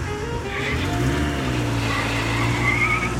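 A car speeds away with its tires skidding, a steady roaring engine mixed with a thin, high tire squeal that holds throughout.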